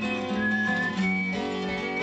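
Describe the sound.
A man, a folk singer, whistles the introduction to his version of a patriotic song: a continuous melodic whistled line with held notes, fairly loud, with no talking.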